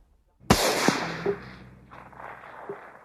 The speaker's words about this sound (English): At that instant, a shot from a rifle killed the Indian.